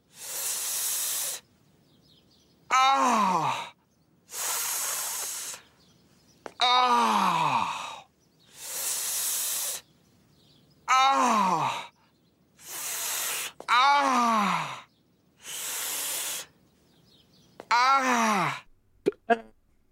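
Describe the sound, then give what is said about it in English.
A man's voice imitates the pained groan of a cartoon character scraping his knee, with several drawn-out 'ah' groans that fall in pitch, alternating with loud bursts of hiss-like noise. “You know that noise that Peter Griffin makes when he scrapes his knee? Ah.”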